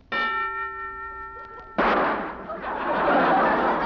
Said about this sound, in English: That's the first time I ever heard a preview of a gun going off.